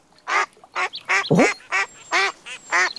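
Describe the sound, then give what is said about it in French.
Ducks quack in a quick run of eight nasal, raspy calls, loud and fairly evenly spaced, with near silence between them. “Tiens, des canards.”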